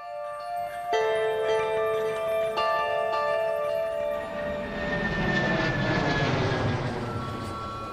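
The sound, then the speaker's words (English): Aircraft engines at a busy airport swell into a loud, broad roar through the second half, after steady tonal hum with a couple of sharp onsets early on. “the airport is just as busy as ever”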